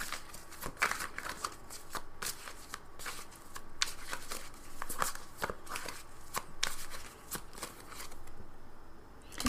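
Tarot cards being shuffled: many quick, crisp riffling bursts and flicks in an irregular rhythm, fairly quiet and alone, with no speech over them.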